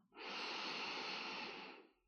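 One deep inhalation through the nose and mouth, a soft, airy breath that swells and fades over about two seconds.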